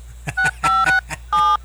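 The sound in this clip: Touch-tone dialing of a telephone number: four steady dual-tone beeps, the middle two close together and the last after a short pause, with faint low noise between them.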